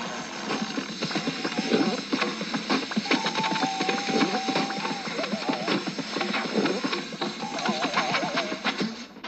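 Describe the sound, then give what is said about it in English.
A confectionery machine in a chocolate factory runs with a continuous, dense clatter of rattling and clicking. Brief whistling tones rise above the steady mechanical din. “What you are witnessing, dear friends, is the most enormous miracle of the machine age. The creation of a confectionery giant.”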